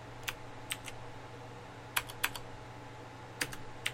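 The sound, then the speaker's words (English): Sparse keystrokes on a computer keyboard, about ten light clicks in small irregular clusters separated by pauses, over a faint steady hum. “Oops. I have to type it all in myself.”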